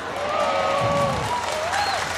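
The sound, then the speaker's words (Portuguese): Church audience applauding, a steady wash of clapping that carries evenly through a brief moment. “Se você quer aplaudir, aplaude direito, pelo amor de Deus.”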